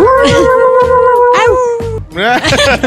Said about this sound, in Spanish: Perro triste.